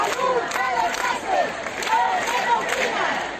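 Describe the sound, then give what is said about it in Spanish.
Crowd noise from a street protest rally in Vallecas, Madrid, in front of the regional assembly: many overlapping raised voices and shouts form a steady, dense roar, with individual cries rising and falling throughout. “Este es el sonido de la concentración en Vallecas frente a la Asamblea de Madrid.”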